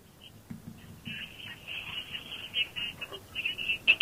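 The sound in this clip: A telephone call connects on a radio call-in show: a thin, steady high line tone with faint crackles and low murmuring underneath, quiet overall.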